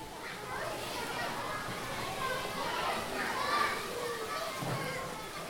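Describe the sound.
Children play together, a continuous lively mix of overlapping kids' voices, shouts and chatter at a fairly steady level throughout.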